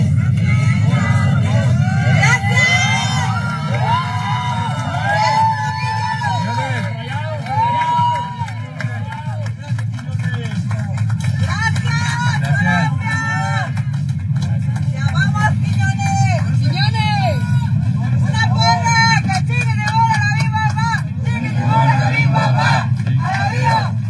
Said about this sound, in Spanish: Aquí escuchamos el recibimiento que tuvo Julián Quiñones.